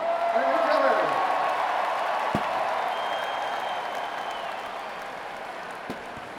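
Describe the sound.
An audience at a live concert applauds and cheers for a woman invited up on stage. The loud, steady wash of clapping carries crowd voices and a brief whistle-like tone early on, then eases slightly toward the end.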